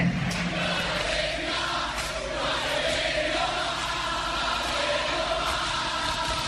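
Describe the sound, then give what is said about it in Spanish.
Crowd noise from an Argentine rock concert audience of the 1970s, a dense, continuous roar of many voices that holds a steady loudness from start to finish. “Público argentino en los 70s.”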